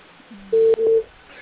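Telephone tones as a call is placed: two short, steady mid-pitched beeps in quick succession, clear and alone after a faint lower hum.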